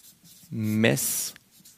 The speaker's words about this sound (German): Ich wollte hier noch schreiben,